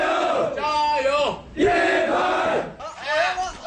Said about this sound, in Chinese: 大槐树下，加油声此起彼伏，球员们你来我往，好不热闹。